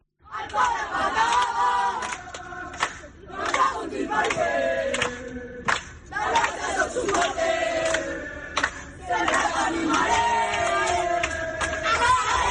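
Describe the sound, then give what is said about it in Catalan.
Shouting and cheering from FC Barcelona under-11 youth players celebrating their Liga Promises title after a 3-0 final win over Sevilla: many young voices yell together in a loud, continuous burst with repeated swells. “Aquests que criden són els alevins del Barça, campions de la Liga Promises, guanyant 3-0 al Sevilla a la final.”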